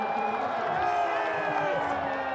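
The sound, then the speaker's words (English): Crowd cheering at a bathtub race in Santon, a steady murmur of shouts and whoops running beneath a voice talking throughout. “What a run! Bath time has the crowd on its feet here in Santon today.”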